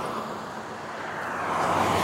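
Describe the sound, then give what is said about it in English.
Road traffic passing during a walk-jog cool-down: a continuous broad rushing whoosh of vehicles that grows louder toward the end. “So, I'm on the cool down portion of a short, brief, got traffic going by.”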